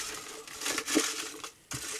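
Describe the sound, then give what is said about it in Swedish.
Paper entry slips are poured into a jar and mixed, making faint, rustling, scraping bursts with a short lull before a final shuffle. “Så nu häller vi ner de som har alla rätt i en burk med de som inte hade det och blandar.”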